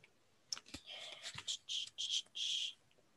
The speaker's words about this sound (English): shuffling like a loon over here because I've got teeny tiny fingers and these cards are massive.